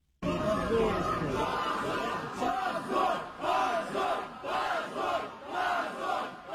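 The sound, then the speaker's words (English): Party supporters chant "shame" outside a Russian court in a rhythmic crowd call, the unison shout rising and falling in a regular pulse many times over. “That was the sound of the party's supporters chanting shame outside the court after that verdict was announced.”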